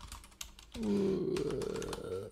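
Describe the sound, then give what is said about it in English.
Quick clicking of typing on a computer keyboard, a short run of light key taps over a steady tonal hum that starts partway through. “How are you so fast at this? I'm a good typer.”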